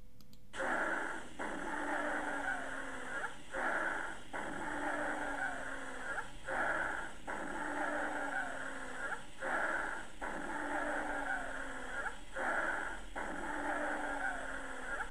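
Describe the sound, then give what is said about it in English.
Wheezing lung sounds heard through a stethoscope during a cardiovascular examination, a series of rhythmic musical, whistling breaths repeating about every three seconds, each rising and holding in pitch, fairly loud and with no talk over them. “wheezing. Now this was wheezing. Okay, once again for wheezing, please.”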